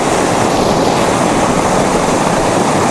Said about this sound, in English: Okay, this is waterfall number 2. Very cool.